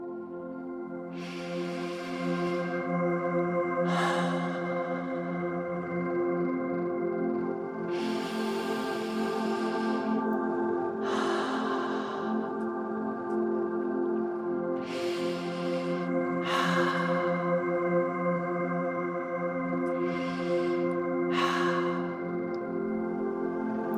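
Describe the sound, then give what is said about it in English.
Slow deep breaths, a few airy inhales and exhales during a children's guided relaxation, rise and fade at an unhurried, even pace over a soft, sustained musical bed. “Let's take a few deep breaths.”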